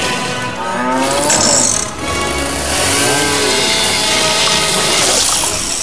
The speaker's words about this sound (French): Et on vient de scier une vache en deux!